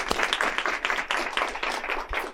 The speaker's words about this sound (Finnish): annetaan vähän aplodeja.